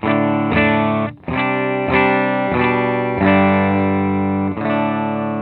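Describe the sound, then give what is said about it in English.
Electric guitar chords from a Gibson Les Paul on the bridge pickup, played straight into a Deluxe amp miked with a 57, no pedals: a loud series of about seven strummed, sustained chords with a gritty, crunchy edge. “Deluxe, mic'd with a 57, going right into an M-Box to be recorded. So pretty straight up, no other effects or anything in the loop. The Les Paul will be played in the bridge position for all of these tests.”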